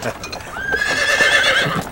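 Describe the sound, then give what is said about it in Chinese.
A horse pulling a cart neighs as it arrives, a long, high, quavering whinny over steady clip-clopping hooves. “爹，马车拉来了。”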